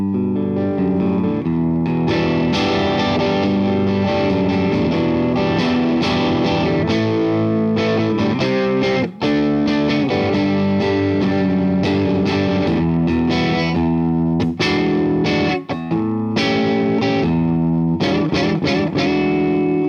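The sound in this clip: Electric guitar played with both pickups coil-split together while the volume is varied, giving a loud, continuous distorted tone of sustained ringing chords and notes, with a few brief dips in level.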